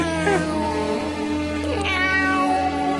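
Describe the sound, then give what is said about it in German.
A cat meows a few times at a New Year's Eve gala, the plaintive calls rising and falling over a steady tonal background. “Na, schau hier, wie die Katze am Tanzen.”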